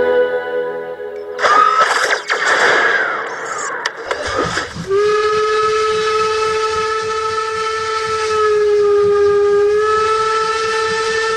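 A steam locomotive whistle from a freight train at the railway station in Iași in 1916: a loud burst of hissing steam, then a long, steady whistle tone that holds to the end with a slight waver.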